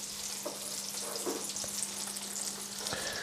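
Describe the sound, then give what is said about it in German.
Mushrooms fry in butter in a pan with a steady, bright sizzle. A few soft stirring scrapes sound on top. “Aber wenn die nur in Butter gebraten sind, dann haben sie schon einen Biss.”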